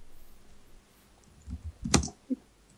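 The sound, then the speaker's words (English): Faint typing on a computer keyboard: a few scattered, soft key clicks in an otherwise quiet background, with one sharper click near the middle standing out. “can you type what you wanted to say?”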